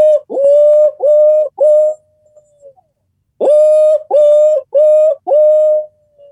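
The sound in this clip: A barred owl's hooting call: three loud, resonant hoots, each opening with a short upward glide, then a pause and four more, the last drawn out longer.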